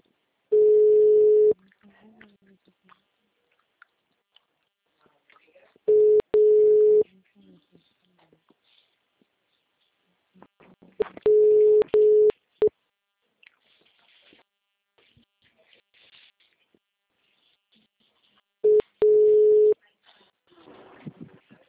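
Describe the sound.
A telephone busy tone after a dropped call sounds in four bursts of a steady low-mid pitched tone. The bursts come several seconds apart, with faint noise in the gaps.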